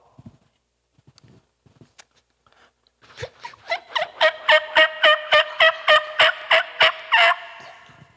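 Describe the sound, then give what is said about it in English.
A person imitates a female turkey call, voicing a rapid, even series of many sharp, nasal yelps at a steady pitch, preceded by a few faint clicks. “And so what a female turkey that wants to get some coffee sounds like is something like this.”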